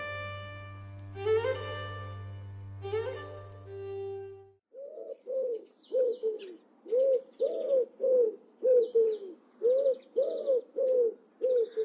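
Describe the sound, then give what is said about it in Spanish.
A wood pigeon coos in a rhythmic series of soft, low, hollow notes grouped into repeated phrases. They follow a few seconds of sustained instrumental tones that stop before the cooing starts. “¿Y cuáles son esos pájaros? Bueno, el segundo es la paloma trasca o paloma europea.”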